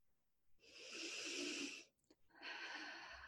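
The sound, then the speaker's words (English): Slow, deep breathing during a guided breathing exercise: one long, breathy airflow that swells and fades, then, after a short pause, a second long breath begins. No talking. “just invite you to take three more breaths with me”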